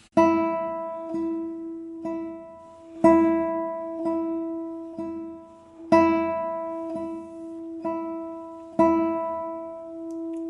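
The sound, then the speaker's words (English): An open string sounds one steady pitch in triple meter. Each downbeat is plainly accented and the two beats after it are lighter. Four bars give eleven strokes in an even pulse, with no voices. “accenting the downbeat and then lifting the following two beats. So it sounds something like this on an open string.”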